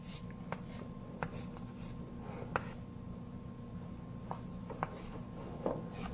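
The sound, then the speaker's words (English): Soft scratching of symbols being written on a board during a mathematics lecture: a few quiet, brief strokes scattered over a steady low hum, with no talking. “I will write every field once, and I will write it in this symbol.”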